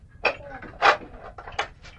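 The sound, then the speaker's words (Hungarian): Knocking on a door at home: a few soft, dull wooden thuds at uneven spacing, faint over low background noise. “itt nagyon kopognak. Gyere, menjünk át a másik szobába, mert valaki kopog, jó?”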